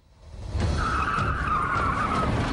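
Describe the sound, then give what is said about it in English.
Tires squeal and skid as a police car speeds around a corner: the sound swells quickly into a loud, sustained high-pitched screech over a low rumbling roar. “He speeds around the corner in a police car and crashes through the wire gates in the fence around the mill.”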